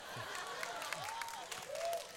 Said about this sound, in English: some of the women are clapping.